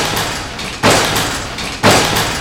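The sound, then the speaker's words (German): Entrance doors of a shopping center slam shut one after another, giving two loud, sharp bangs about a second apart. Each bang is followed by a lingering wash of noise that slowly decays. “Eine nach der anderen schlugen die Eingangstüren jetzt mit lautem Knall zu.”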